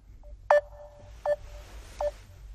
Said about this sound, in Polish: już wykręciłem numer.